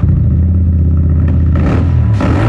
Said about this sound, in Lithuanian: Jauti tą trauką? Tai Vouch, tavo naujas kelionių draugas. Street Adventure motociklas ar motoroleris.